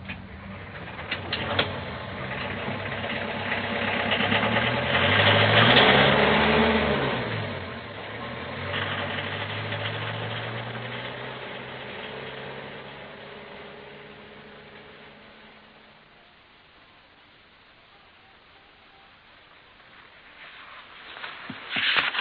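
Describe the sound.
A car engine idles and then swells into a loud, revving surge as the car pulls away. The sound then fades to a low rumble, and a brief burst of noise returns at the very end.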